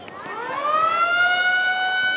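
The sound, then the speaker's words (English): A school siren in Durán, Ecuador, sounding the end of recess: one loud, sustained wail that rises in pitch over the first second, then holds steady and bright. “That's the school siren. Recess is now over, and students line up in the school patio here in Durán”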